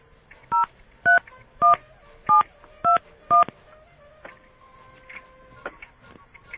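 Telephone number being dialed: six short, evenly spaced DTMF keypad beeps over about three seconds, followed by a few seconds of faint background noise.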